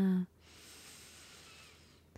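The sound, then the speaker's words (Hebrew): A deep breath in during a guided relaxation breathing exercise: a brief spoken cue, then about two seconds of soft, steady, airy inhalation alone. “ועוד פעם אחת אחרונה, שאיפה.”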